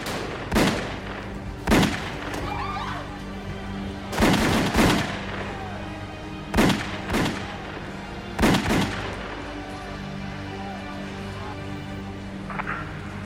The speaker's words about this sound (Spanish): Al salir del automóvil, varios hombres se les acercaron y comenzaron a disparar.